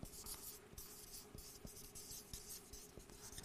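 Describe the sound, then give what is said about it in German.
Someone handwrites a single word in a steady run of faint, scratchy strokes, with a few light taps as the writing tool lifts and lands. No one speaks. “Ich schreibe mal nur vergessen hier hin.”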